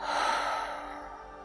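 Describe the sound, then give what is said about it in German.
A deep, slow breath drawn in through the nose and let out through the open mouth: one long, airy rush of breath that stays loud, then eases off a little toward the end. “Atme tief durch deine Nase ein und durch deinen geöffneten Mund aus.”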